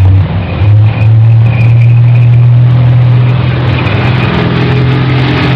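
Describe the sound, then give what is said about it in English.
Steady, loud engine rumble of a WWII tank in the North African desert, 1942, a deep continuous drone that holds throughout without pause. “That is the sound of a tank, the sound of the war in North Africa in the summer of 1942”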